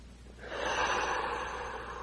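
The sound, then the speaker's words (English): A single deep breath drawn in during a calm guided prayer meditation: one long, airy inhalation that swells in after a brief quiet start and holds steady, soft and unaccompanied. “We take a deep breath and go even deeper.”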